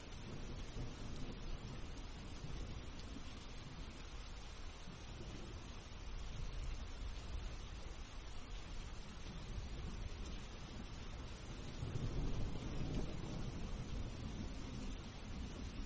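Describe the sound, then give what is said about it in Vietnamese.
Heavy rain and gusting wind in a mountain gorge: a steady, fairly quiet wash of rain noise that swells louder in the last few seconds as a gust builds, then holds. “nổi cơn mưa nặng hạt. Những hạt mưa len qua kẽ lá rơi xuống người chúng tôi. Khe núi tuy sâu nhưng cũng không ngăn nổi những cơn gió giận dữ. Từng trận cuồng phong không ngớt thổi dọc theo những khe hẹp”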